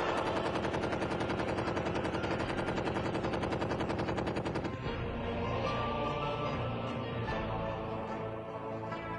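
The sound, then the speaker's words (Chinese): Gunfire during a 1937 battle along Suzhou Creek against Japanese troops: a dense, rapid stream of shots for about five seconds, then rougher, more irregular bursts of firing continue. “当不知虚实的日军沿着苏州河边搜索时，王文川手中的枪响了。”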